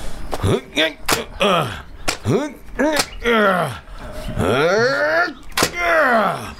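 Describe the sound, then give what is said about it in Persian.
Several sharp thumps and knocks from a stuck, locked door being forced, mixed with strained groans and people talking between the blows. “هر کاری میکنم نمیتونم این در رو باز کنم. اجازه بدید من امتحانش کنم.”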